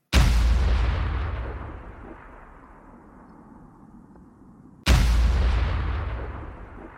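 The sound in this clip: Two heavy gun blasts are fired at the upper floors of a building, each a loud, deep boom that rolls out into a long, fading rumble before the next shot.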